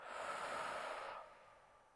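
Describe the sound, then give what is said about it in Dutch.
Slow breathing in through the nose and out through the mouth during a guided meditation: a soft, airy rush of breath lasting about a second, then fading away to near quiet. “Adem in door je neus. En blaas uit door je mond.”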